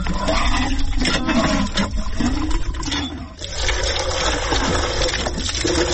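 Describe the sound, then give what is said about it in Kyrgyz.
A water pump in a village settlement draws water with a continuous loud gushing roar, broad and steady with slight surges and one brief dip midway, and no voices over it. “Азырынча жылуу мезгилде бул суу соргуч жакшы эле иштейт.”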